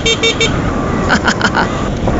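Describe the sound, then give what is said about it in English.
Light, high-pitched horn of an electric scooter sounding as rapid short beeps in two bursts, a quick trio followed by a longer run, over steady road noise. “I'll just demonstrate that now. It's quite a light horn, isn't it? High pitch.”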